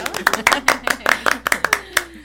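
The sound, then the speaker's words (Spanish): Scattered handclaps from a small church ministry gathering answer a call for applause. Many sharp, uneven claps rise and fall irregularly, fairly loud, with no big crowd roar behind them. “Un aplauso para José”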